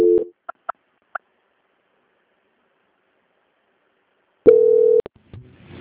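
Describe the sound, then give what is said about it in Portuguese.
Telephone beeps during a call transfer: a few brief, sharp blips, then a long stretch of near silence, then a sustained steady tone that cuts off, with a few faint clicks and a low murmur. “Vou voltar a ligação. Transferência.”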